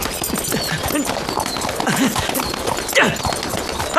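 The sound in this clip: Horse hooves clip-clop as the animal is ridden, many steady hoof beats over a loud, dense background that continues throughout.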